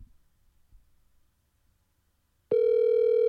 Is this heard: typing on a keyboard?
no